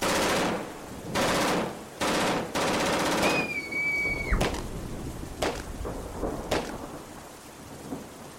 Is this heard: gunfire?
yes